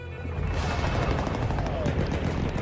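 Enemy weapons fire in a dense, continuous rattle of gunfire, a sustained loud roar with no clearly separate shots.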